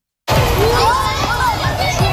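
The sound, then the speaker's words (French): Children play in a private school playground at recess on the first day of classes at Saint-Edward school in Winnipeg. A loud, dense babble of young voices with shouts and squeals starts abruptly and carries on throughout. “C'est le premier jour de classe à l'école Saint-Edward de Winnipeg et c'est déjà l'heure de la récréation.”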